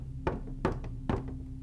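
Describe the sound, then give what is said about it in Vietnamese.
Three distinct knocks on a bedroom door, evenly spaced and fairly sharp, sound over a steady low hum, with no voices. “Sau đó là tiếng gõ cửa vang lên.”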